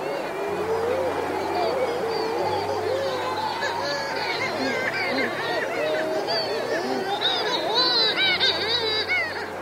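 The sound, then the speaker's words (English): Seabirds calling at a nesting colony on Gough Island in the South Atlantic: many overlapping wavering, warbling cries form a continuous chattering din over a low steady hum. “This is the sound of seabirds living on Gough Island in the South Atlantic Ocean, recorded by Rolf Dayling at the RSPB.”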